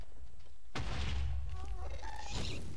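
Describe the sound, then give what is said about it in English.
A ghast's fireball blast in a video game: a sudden loud boom hits early, followed by a sustained low rumble and a few tonal game effects. “Well, there's a ghast that's shooting shit at me. I hit it back.”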